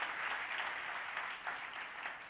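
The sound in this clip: An audience claps to welcome a guest speaker, a dense, steady wash of applause that holds at an even level for the whole stretch.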